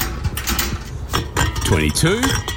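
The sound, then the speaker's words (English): Empty beer cans being collected and handled, giving a few scattered metallic clinks, knocks and rattles while a voice talks over them. “Mate, what are you doing? Stock take before a barbecue? Ha, nah, collecting cans. This stash will get me close to $100.”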